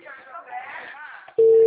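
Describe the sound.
A telephone busy signal cuts in after a dropped call. A voice talks first, then a loud, steady single-pitch tone starts abruptly and holds through the last moments.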